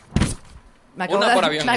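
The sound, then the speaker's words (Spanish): A microphone knocks against the speaker's body: one short, loud thud near the start, then a pause and a woman talking. “Me acabo de golpear yo misma con el micrófono.”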